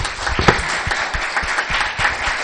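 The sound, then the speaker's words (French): Congregation applause at a church service, many hands clapping in a steady, dense patter of fairly loud claps that carries on throughout. “Et je crois qu'on peut les applaudir.”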